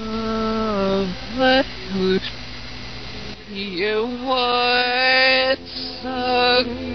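Closing passage of a rock song played in reverse: warbling, backwards-sounding vocal lines with swelling sustained notes and abrupt cutoffs, loud, broken by a few short pauses.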